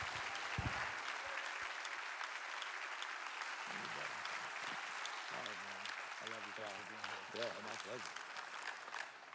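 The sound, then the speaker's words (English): A church audience on Father's Day applauds to welcome its pastor at Traders Point Christian Church. Steady, full clapping runs throughout, and voices call out over it in the later half. “Could we please, at all of our locations, put our hands together, give a warm Traders Point welcome to my pastor, Cam Huxford.”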